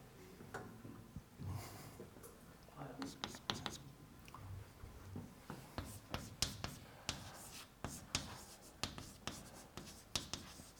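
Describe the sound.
Faint scratching of handwriting as a lecturer keeps writing during an explanation of instruction misses and memory access, made of many short, irregular strokes with brief pauses between them.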